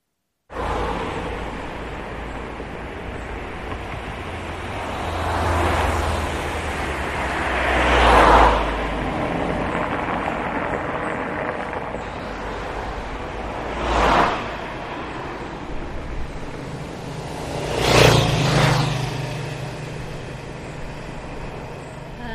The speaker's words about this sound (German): Dieser Mensch wohnt in einer Großstadt mit vielen Autos, da ist Lärm,